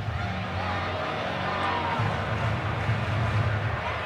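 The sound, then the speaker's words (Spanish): Baseball stadium crowd cheering for a batter at the plate, a dense, steady roar of many voices that holds at an even level throughout with no clear peaks or breaks. “El público animando a Mike Trout.”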